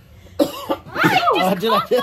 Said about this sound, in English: I'm sorry. I'm just clearing my throat. It's that reflux.